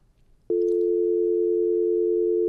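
A phone call drops off and a steady, loud electronic telephone tone starts abruptly and holds at one unbroken pitch to the end. It plays alone, without pulses, after a faint murmur of background noise.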